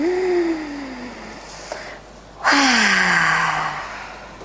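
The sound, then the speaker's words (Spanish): Deep breaths in and out through the mouth during a guided relaxation exercise: two long, sigh-like exhales, each with a falling voiced tone, separated by a brief quiet pause. “Tomamos una inhalación profunda suavemente y exhalamos por la boca. Inhala otra vez.”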